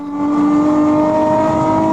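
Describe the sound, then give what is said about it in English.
Car engine of an Audi with New York plates speeding at about 90 miles an hour on the Garden State Parkway, a steady, loud droning hum with strong tonal whine at constant pitch, sustained without a break and with no voices. “Guy with New York plates driving an Audi. He's got to be doing 90 miles an hour.”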